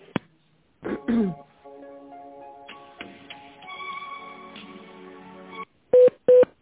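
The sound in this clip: Telephone tones as a call is transferred: a few clicks, then a sustained layered tone passage, followed by short repeated beeps at a steady pitch.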